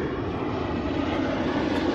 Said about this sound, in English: airplane coming through.